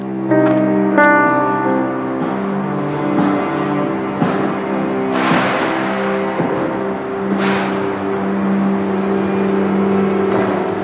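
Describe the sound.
A car driving off, its engine giving a steady humming drone with layered tones and a few brief noisy bursts, with no talk.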